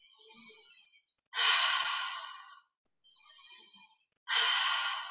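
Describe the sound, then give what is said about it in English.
Connected circular breathing demonstrated in two cycles, each an airy inhale followed by a fuller, louder exhale, with only brief gaps between breaths. “It's a circular breath. So keep it connected and consistent,”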